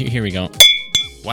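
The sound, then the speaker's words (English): Two ceramic mugs clink together, making two sharp, bright knocks with a high ringing tone that lingers between them. People talk just before and after the clinks. “that's the sound of two Gensokyo Radio ceramic mugs hitting each other, not breaking each other.”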